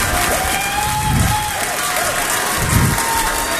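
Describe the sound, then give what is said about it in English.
Studio audience applause rolls on as a continuous, fairly loud patter of clapping, with faint voices surfacing now and then beneath it. “I sense audience approval.”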